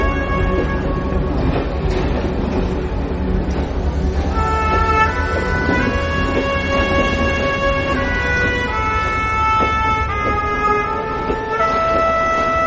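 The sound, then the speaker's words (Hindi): A train pulling away from a railway platform makes a loud, continuous rumble, with sustained metallic whines and squealing tones layered over it throughout. “Train platform से चली गई है।”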